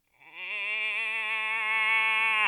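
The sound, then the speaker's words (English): A person imitates a cow moose call with one drawn-out, nasal, voiced moan. It stays level in pitch for over two seconds, then cuts off abruptly. “I think we need to tailor the calls. A cow moose goes,”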